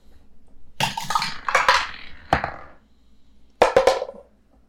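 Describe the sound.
Dice clattering on a table as players roll in a tabletop role-playing game: several separate bursts of rattling clicks with quiet gaps between them, no talk.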